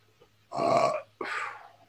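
A shaman belches during an energy-healing session: two rough, throaty belch bursts in quick succession, moderately loud, with no talk over them.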